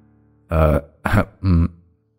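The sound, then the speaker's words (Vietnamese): A heavyset father clearing his throat, acted out by a voice: three short, gruff, voiced bursts with brief gaps between them, loud and alone. “Thầy Tư Mập hắng giọng, rồi quay mặt đi né tránh ánh mắt của con trai”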